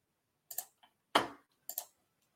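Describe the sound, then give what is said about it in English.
Keyboard keys click as a pick is typed into a computer during a dynasty fantasy basketball mock draft. A few sharp, separate clicks come at irregular intervals, some in quick pairs, alone without talk. “So Josh Green will be the next guy I take. I type this in”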